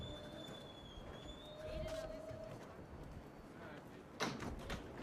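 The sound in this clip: Inside a New York subway 7 express train to Flushing-Main St: a steady rumble with a faint electric whine, a voice announcement and a sliding door sound near the end.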